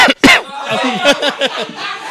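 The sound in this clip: Coughing from someone whose piece of frikandel went down wrong: two sharp, loud bursts at the start, followed by breathy, chuckling vocal sounds.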